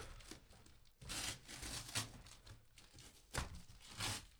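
Masking tape tearing off a gift box while Christmas presents are opened: a few loud, rasping rips in separate bursts, with quieter rubbing and crinkling between them.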